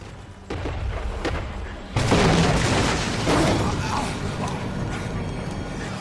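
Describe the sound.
Main fuel tanks at a burning gas plant exploding: a dull boom opens, then a much larger blast hits about two seconds in and gives way to a sustained roaring rumble with crackling debris.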